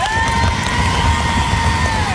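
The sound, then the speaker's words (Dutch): An audience cheers and whoops loudly and continuously after a one-handed puzzle cube solve. A high, whistle-like tone is held through the crowd noise. “Ik vind echt wel applaus voor dat met één hand.”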